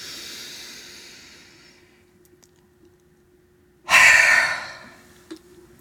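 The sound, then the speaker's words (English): Deep breathing for a relaxation exercise: a soft, drawn-out breath fades away, a quiet pause follows, then a sudden loud, airy rush of breath tapers off. “Nice inhale. And drop your breath. And again, inhale.”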